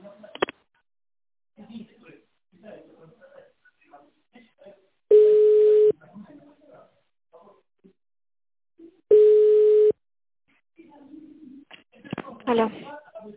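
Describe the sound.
Telephone line tones while a call is being transferred: two long, steady beeps at one even pitch, spaced a few seconds apart, with faint voices and small clicks in between.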